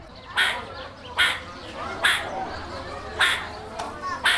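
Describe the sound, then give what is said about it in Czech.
Meerkat alarm calls from a zoo enclosure in winter: a series of sharp, harsh barking chirps repeat at roughly even intervals, each a brief bright burst over a faint, steady background. “Tak jsem si říkal, co je to za ptáka, nebo jestli se to ozývá z vedlejšího výběhu a takový zvuk vydává surikata. Jo, to je právě ten signalizační zvuk, kdy se snaží informovat ty ostatní o něčem”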